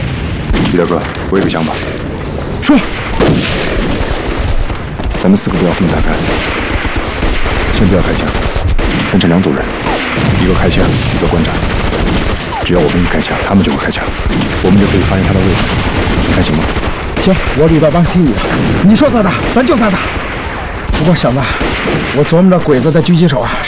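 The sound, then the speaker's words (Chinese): Heavy machine gun fire in a wartime battle: dense, continuous bursts of shots mixed with booms, sustained loudly throughout beneath voices talking. “鬼子重机枪火力太猛。”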